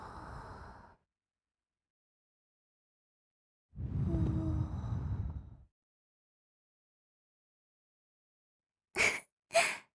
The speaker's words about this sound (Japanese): 耳穴の中に息を吹きかけられて、体がゾクゾクってしたんだよね。